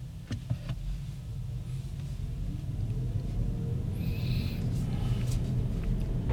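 Steady low road rumble of an electric car driving at about 70 km/h toward a motorway on-ramp, growing gradually louder, with a few faint clicks early on and no talk.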